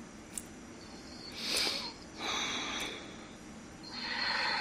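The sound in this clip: Deep breaths drawn in through the nose make soft, airy, hissing swells, three of them, faint and unaccompanied by speech.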